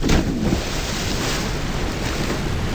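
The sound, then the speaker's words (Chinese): Water at a deep summer diving spot splashes and rushes in a dense, continuous wash, loudest in a brief burst at the start, with no voices heard. “这些声音在夏天很悦耳，这些水声在夏天很诱人”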